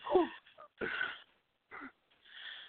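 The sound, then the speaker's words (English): A person takes a deep breath in a few airy, wheezy bursts separated by short pauses, quiet and breathy throughout. “Deep breath.”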